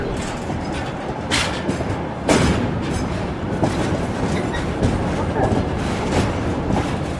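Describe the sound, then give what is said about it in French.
A Trans-Siberian train runs on its rails, recorded between its carriages: a steady, loud rolling rumble with rhythmic clickety-clack wheel beats and a few sharper knocks throughout. “Le son du train sur les rails, on l'entend derrière nous, hein, c'est vous qui avez enregistré ce son du Transsibérien.”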